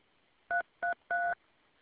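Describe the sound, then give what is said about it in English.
Telephone keypad tones as buttons are pressed on a phone during a call: three clean dual-pitch beeps, the first two short and evenly spaced, the third held noticeably longer, with no voices. “Can you stop pushing buttons on your phone here?”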